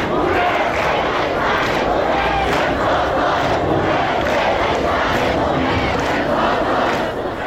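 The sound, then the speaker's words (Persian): Students at Islamic Azad University in Qods city chant protest slogans against Iran's Supreme Leader, a loud, continuous roar of many voices with a steady rhythmic pulse running through it. “در دانشگاه آزاد شهر قدس، دانشگاه محل تحصیل حمیدرضا روحی، از کشته شدگان اعتراضات دانشجویان علیه رهبر جمهوری اسلامی شعار دادند.”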